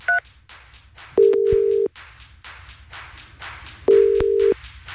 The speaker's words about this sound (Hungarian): Lássuk, hogy ki reagált a leggyorsabban a játék felhívásunkra. Őt hívom most.